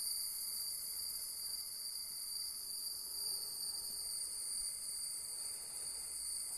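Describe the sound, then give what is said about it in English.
Rainforest ambience full of insects: a steady, high-pitched cricket-like chorus buzzes without pause, fairly faint and constant, with no voices. “speaking of rainforest, there you go.”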